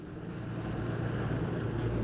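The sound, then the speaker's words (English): Creel fishing boat setting sail off the Applecross Peninsula in Scotland to fish for prawns, a steady low engine rumble blended with wind and water noise, even and continuous throughout. “Setting sail from the Applecross Peninsula, this creel boat's one of just three here fishing for high-value prawns.”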